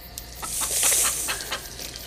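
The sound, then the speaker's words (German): Chicken clucking in a series of short, fairly loud clucks at an uneven rhythm, with no talk. “Los, ein Huhn. Nie hätte ich gedacht, so froh zu sein, ein Huhn zu sehen.”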